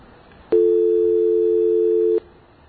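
A steady dual-pitch dial tone sounds on a telephone trunk line, holding unchanged for under two seconds. It starts and stops abruptly, with a sharp click at each edge.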